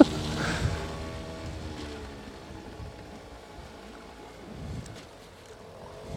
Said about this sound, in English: if you get behind a boat this big, you may as well follow him.